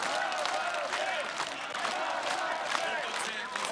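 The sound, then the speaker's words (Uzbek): Ukrainians gathered outside parliament clap and cheer during Zelenskiy's first speech at his presidential swearing-in. The crowd noise is steady and moderately faint, with continuous applause and scattered cheers throughout. “Zelenskiyning ilk nutqini qasamyod marosimini kuzatish uchun parlament oldiga yig'ilgan ukrainlar bevosita kuzatib, olqishlab turishdi.”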